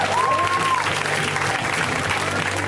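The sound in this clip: An audience applauds a comedian being introduced at a comedy show, with dense, steady clapping and crowd noise throughout and a brief whistle near the start.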